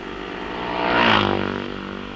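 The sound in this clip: An AJS racing motorcycle speeds past on a lap, its engine a buzzing, harmonic drone that swells to a peak near the midpoint and then eases off, heard alone with no voices.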